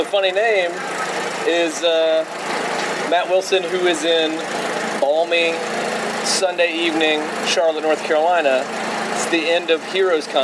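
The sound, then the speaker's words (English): Generators powering food trucks, churning and sputtering at the end of an evening comic convention in Charlotte, North Carolina: a steady low engine hum running under a man's continuous talk. “The sound you likely hear in the background right now, the churning and sputtering. Those are generators powering food trucks.”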